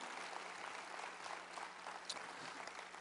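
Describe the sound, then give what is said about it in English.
Audience applause greeting a panel coming onstage: dense, continuous clapping from many hands, steady and fairly faint throughout, with no break. “You will greet them as they come, will you not? Will you give them your love and applause?”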